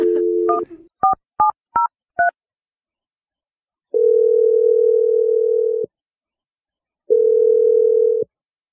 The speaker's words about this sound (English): There's 7 digits, and I've already done my 7 jumping jacks, so all is good. Okay. No. All right. Awesome. I'm going to dial it right now.